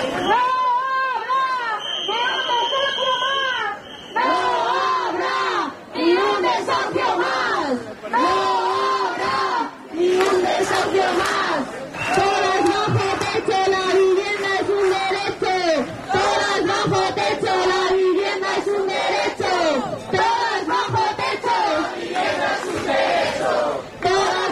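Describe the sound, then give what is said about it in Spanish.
Protesters at a housing union rally chant outside the government delegation in Cantabria, loud rhythmic massed voices repeating phrases. A high whistle-like tone sounds briefly near the start. “Son algunos de los sonidos que se han escuchado en la concentración frente a la delegación de gobierno organizada por el Sindicato de Vivienda de Cantabria”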